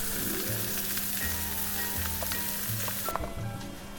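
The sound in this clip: Mackerel sizzles on a hot plate with a steady, even frying hiss, joined by faint scattered pops and crackles, with no talk.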